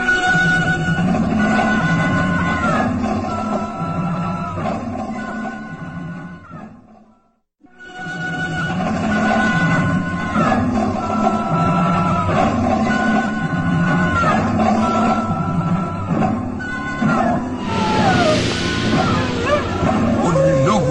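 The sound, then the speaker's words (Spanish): Howling in a radio drama: several long, wavering tones gliding downward in pitch, repeating over a dense, steady background, with a brief near-silent dip partway through. “¿Qué es eso? ¿Qué fue eso? Un aullido.”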